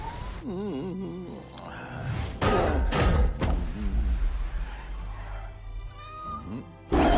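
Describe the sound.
A cat meows in several wavering, rising and falling cries, then a few heavy thuds and knocks follow, ending with one loud bump.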